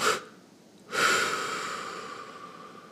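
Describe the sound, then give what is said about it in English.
Breathing during a calming exercise: a short, sharp burst of air, a brief pause, then a long, airy exhale that starts strong and slowly thins out. “Breathe all the way in, and then double push.”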